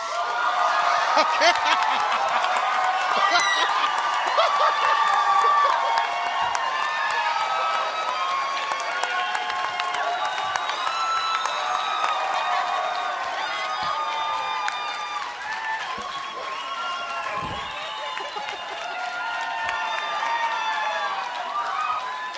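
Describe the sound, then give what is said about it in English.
A live comedy-show audience ululating and cheering as a guest is welcomed, with a dense, loud wall of high warbling whoops and crowd noise sustained throughout. “They're ululating. Well, they know when they're in the presence of royalty.”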